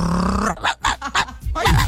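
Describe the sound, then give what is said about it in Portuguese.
A person imitates a dog barking with a few gruff, growling bark sounds in quick, uneven succession. “Aí, quem tava latindo aí nesse dia? Esse aí fui eu.”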